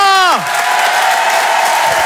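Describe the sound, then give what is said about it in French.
Applause and cheering from a comedy-show audience welcoming a comedian onstage, a dense, loud, steady wash of clapping and crowd noise that holds for about two seconds. “Je vous demande un tonnerre d'applaudissements, s'il vous plaît, pour Luigi Lee.”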